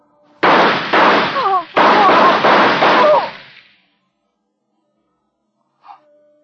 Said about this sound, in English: They shot at me.